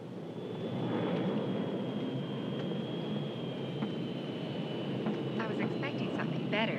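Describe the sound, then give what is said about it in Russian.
Ambience at Nairobi airport, with aircraft: a steady, even drone carries a thin, high whine. A few faint chirping sounds appear near the end. “Аэропорт Найроби.”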